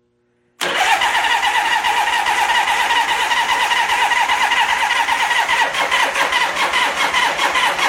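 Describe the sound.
An engine started on the ignition with the choke fires abruptly after a moment of silence, then settles into a loud, steady running drone that holds to the end.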